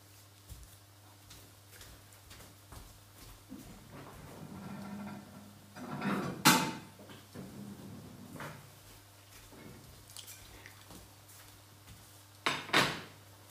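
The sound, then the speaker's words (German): A plate is fetched from a kitchen cupboard while scrambled eggs are made, giving faint rattles and shuffling, two sharp clattering knocks of door and dishes, and a steady low hum underneath. “Ich hole mir schon mal einen Teller.”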